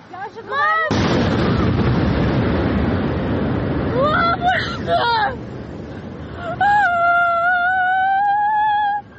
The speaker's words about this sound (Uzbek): Internet tarmoqlarida esa dron hujumi Moskva City binolaridan biriga urilgani aks etgan mana bu video paydo bo'ldi.